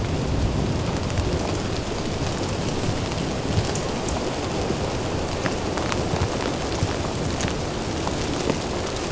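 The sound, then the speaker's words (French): Steady rain falls during a thunderstorm at a guards' cabin, a dense, continuous patter of drops with no pauses, fairly loud and even throughout, with no voices. “Un filet de pluie.”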